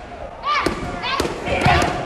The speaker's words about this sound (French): elle enchaîne les coups de genou dans un sac de frappe.